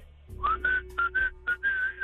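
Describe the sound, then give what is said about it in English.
A person whistles a short tune: several clear, mid-pitched notes in brief phrases separated by small gaps, the last note held longest, over a faint steady hum. “whistling”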